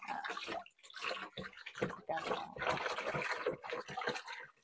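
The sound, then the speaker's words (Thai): Water splashing and sloshing as turmeric-dyed cloth is rinsed by hand until the water runs clear, coming in quiet, irregular surges and swishes with brief pauses between them. “ต่อไปนะคะก็จะเป็นการล้างทำความสะอาดในวิธีการล้างนะคะก็คือเราล้างให้เขาล้างจนเป็นน้ำใสเลยนะคะจนสีเหลืองหายไปนะคะ”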